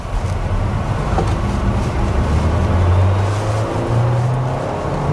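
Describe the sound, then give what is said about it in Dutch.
Combustion engine of a car with a gearbox accelerating at full throttle from a traffic light and shifting gears: a loud, continuous low engine drone whose pitch climbs in stages. “Hoor de verbrandingsmotor ook. Nu schakelt hij. Wel een soort vertraging als je schakelt.”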